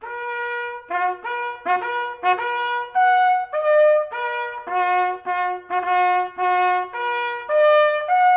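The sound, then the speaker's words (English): A bugle plays the lights-out call, the last call of the evening, as a clear brass melody of many sustained notes. The notes are separated by short gaps and sound alone, with no voices. “It is the bugle call that sounded to turn off the lights and go to sleep.”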